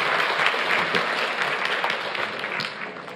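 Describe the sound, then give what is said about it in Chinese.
Warm crowd applause welcomes a church elder at a church gathering, dense steady clapping sustained throughout and easing slightly toward the end. “我们再用热烈掌声欢迎我们的阿伦长老，好吧？”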